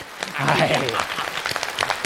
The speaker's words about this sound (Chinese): 今天给我鼓掌的朋友，我一人给您100块钱。